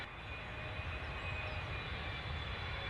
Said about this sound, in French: Tout de suite, décollage. Destination les Comores.